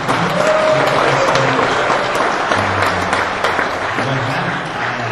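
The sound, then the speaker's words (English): Audience applause during a church service, welcoming a family into the audience: dense, steady clapping that holds at an even loudness for the whole stretch, with no break. “So let's go ahead and let's give them a clap.”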